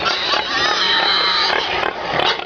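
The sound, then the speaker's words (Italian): A pig grunts in a loud, rough, continuous stream of throaty snorts, with a few slightly stronger pulses near the end. “Vi ho fatto ascoltare il grugnito del maiale perché?”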